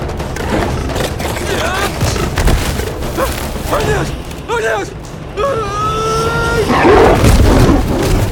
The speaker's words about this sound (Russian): Львица атакует.